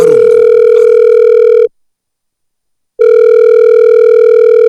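Phone ringing tone as a call goes through: two long, steady electronic tones separated by a clear pause, loud and clean with nothing else around them.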